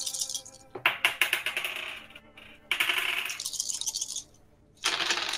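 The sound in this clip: Six dice rattle and clatter during a Degenesis tabletop role-playing game, in a few bursts of sharp clicking with short quiet gaps between.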